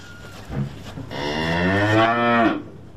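A brown cow with a white blaze gives one long, low moo that swells into a fuller, strained call and then trails off, heard alone over faint background noise.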